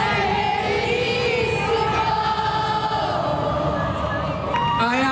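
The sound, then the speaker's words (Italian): A pop concert audience answers the singer in a unanimous chorus, a loud mass of voices holding sustained sung tones together, with crowd noise beneath throughout. “Sono mancato? Chiede al pubblico e con il pubblico scherza. La risposta è un coro unanime.”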